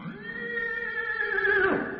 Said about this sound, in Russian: у ворот города послышалось ржание лошади